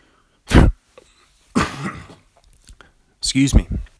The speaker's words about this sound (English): excuse me, let me clear my throat.